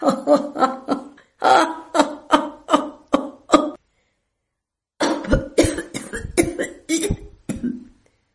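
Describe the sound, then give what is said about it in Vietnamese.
A man laughs harshly while coughing up blood. Two loud bouts of many rhythmic, choking bursts are separated by a short silence. “Ông ta vừa cười, vừa ho ra máu, giống như sắp đem tất cả nội tạng mà đẩy ra ngoài.”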